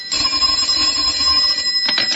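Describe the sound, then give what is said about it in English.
A telephone bell rings without a break, a steady, bright metallic trill that fills the whole short moment with no voices over it. “waiting for the phone to ring. Waiting for the phone to...”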